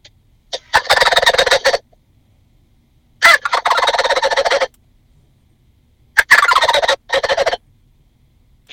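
A person in a truck imitates a wild turkey gobble, three loud, rattling, throaty bursts separated by pauses of silence.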